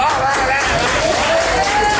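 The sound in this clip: Clapping by a studio guest: a dense, busy burst of hand claps holding steady throughout, with a voice sounding faintly over it.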